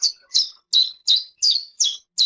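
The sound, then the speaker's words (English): A chiff-chaff's song, partly real and partly an AI-generated continuation: seven short, high, bright chirps repeat in an even rhythm with brief gaps between them, clear and alone. “we already have some tests that we can do this with chiff-chaffs, which are a type of bird that we can put in 3 seconds of them sort of vocalizing and we can continue speaking.”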